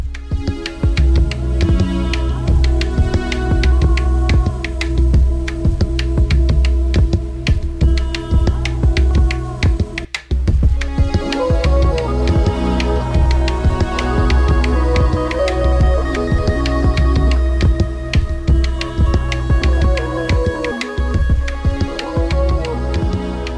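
A band plays a full song to close a show segment, with a loud, steady driving beat, throbbing bass and layered instruments, and a brief break partway through.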